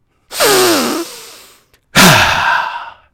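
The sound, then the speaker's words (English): Deep breaths of a breathing exercise, an inhale and a forceful exhale: two long, loud, rushing breaths with a voiced, sigh-like tone, separated by a short pause. “And I want you to inhale. And exhale with force. Inhale with deliberation. And exhale with deliberation.”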